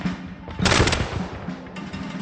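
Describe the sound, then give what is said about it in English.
A volley of musket fire from men massed in tight formation: a loud burst of overlapping shots erupts, then gives way to a lingering, rumbling tail. “So the most effective way of using the muskets was to mass your men together in tight formation and have them fire a volley.”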